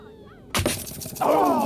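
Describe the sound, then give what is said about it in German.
Paris's thrown spear strikes Menelaos's shield in a Trojan War battle scene: one sudden loud thwack with a sharp onset that decays quickly, followed by a louder, rough, sustained sound. “Menelaos geht sehr schön, katzenhaft mit. Dahinter stehen die versammelten Heeresverbände aus Troja und Griechenland mit angehaltenem Atem. Und da, Paris schleudert die Lanze.”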